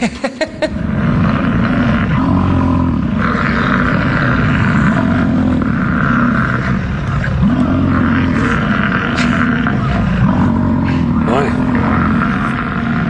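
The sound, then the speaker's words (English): Male bison bellow during mating season: deep, rumbling, motor-like roars that stay loud and continuous throughout, with rough growling texture. “Time for some more weird animal noises. Here's what male bison sound like during mating season.”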